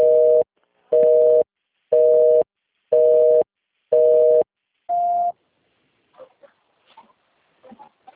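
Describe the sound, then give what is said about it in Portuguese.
Telephone busy signal: six evenly spaced, loud, steady beeps, the sixth slightly higher in pitch, followed by faint, scattered clicks. “The number you have dialed is busy. Please try again later.”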